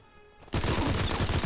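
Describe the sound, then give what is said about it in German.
Rapid automatic gunfire in a shooter video game, weapons fired from the hip in spray-and-pray style. Near silence lasts about half a second, then a loud, unbroken stream of fast shots runs to the end. “Spray and Pray. Guckt euch das mal an, wie krass die Waffen aus der Hüfte sind.”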